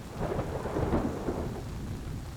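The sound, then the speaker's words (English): Rain falling as a soft, even hiss of scattered drops, faint and continuous with a gentle low rumble beneath it and no voices. “An invigorating splash of raindrops cools your face.”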